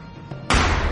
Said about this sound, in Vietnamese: một tiếng nổ lớn vọng lại, làm cho tất cả chúng tôi ai nấy đều chao đảo vì áp lực của nó.